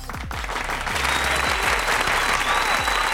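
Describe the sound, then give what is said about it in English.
Canned studio-audience applause, a dense, steady wash of clapping from a fake crowd that stays loud and even throughout. “Welcome back. Ah, yes, thank you. I love a fake audience, yes.”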